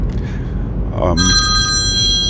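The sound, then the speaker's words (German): A telephone rings with a bright, steady electronic tone that starts about a second in and sounds alone after a brief voice. “Jetzt muss ich mal kurz ans Telefon.”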